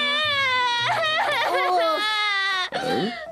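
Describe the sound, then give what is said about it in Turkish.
A child cries in loud, wavering, high-pitched wails that run almost without a break, then ends in a short, gasping sob. “neden ağlıyorsun yavrum?”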